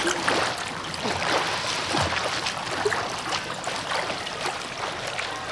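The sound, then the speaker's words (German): Swimming in a pool: continuous splashing and sloshing water with a hissy, churning texture, fairly even in level throughout, with no voices. “Ich muss sowieso weiterschwimmen. Guck.”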